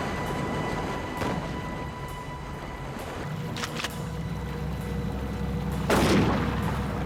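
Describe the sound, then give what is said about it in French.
A firearm shoots at a floating cooler on water: a few sharp, widely spaced cracks, most of them faint, then one louder and fuller report near the end, over a steady low background. “Thomas ordonna à Jerry de faire couler la glacière en tirant dessus à l'aide de son arme à feu.”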